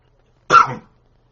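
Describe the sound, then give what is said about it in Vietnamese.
A single short, sharp cough during a Buddhist dharma lecture, about a third of a second long against near silence. “Là nói hay quá nó cũng ho nữa.”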